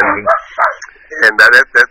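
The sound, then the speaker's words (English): A dog barking in a quick run of short, high-pitched yips and barks. The calls are loud and separated by brief pauses, with a tighter cluster near the end. “That's my doggy, Paco”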